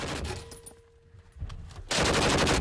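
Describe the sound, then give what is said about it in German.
A volley of gunshots during firing practice: a sharp single crack, then a loud, sustained burst of rapid, dense gunfire that runs on to the end over a quieter noisy background. “Okay, gut gemacht. Noch eine Salve, dann ist gut.”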